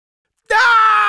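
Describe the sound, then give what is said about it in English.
A voice imitates a boy screaming in fright: a single loud, sustained 'ah' cry that bursts out abruptly after silence and holds steady to the end. “Ah! He screamed again.”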